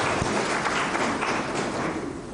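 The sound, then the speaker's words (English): A round of applause from an audience at an event announcing new regional sports facilities, steady, dense clapping that holds at an even level from start to finish. “With facilities underway in Otavi and Oganjira, can we give a round of applause for the initiative?”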